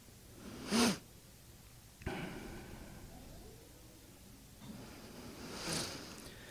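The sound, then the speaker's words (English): A speaker's breaths before a scripture reading and prayer: a couple of short, sharp inhalations spaced several seconds apart, faint and with no talk. “Before I start reading, I'm going to take just a few deep breaths, take a moment, and pray.”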